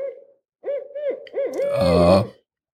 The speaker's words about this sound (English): So there's an owl hoot in there somewhere. Oh, there it is. An owl hoot.